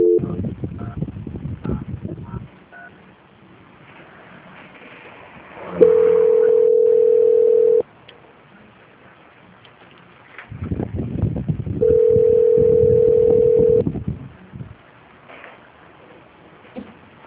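Telephone line tones during a call transfer: two long, steady, even-pitched tones, each lasting about two seconds and separated by a pause, with bursts of rough line noise before each tone.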